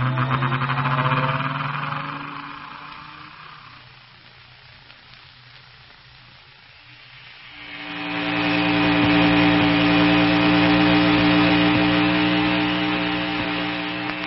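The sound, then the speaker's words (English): A sci-fi machine effect, the gyrocosmic relativator starting up: a loud droning hum rich in steady tones that sinks to a quieter rumble midway, then swells back into a strong, sustained mechanical drone. “Yeah, they're in perfect alignment. And here goes the vise that'll make the gyrocosmic relativator that'll help run down Kane and Ardela.”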